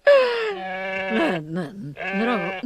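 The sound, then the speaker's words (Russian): A goat bleats in a few loud, quavering, nasal cries heard alone. The first is long and drawn out, followed by shorter wavering bleats. “Да вот же она, прости, Господи. Коза! Манька! Манька, голубушка!”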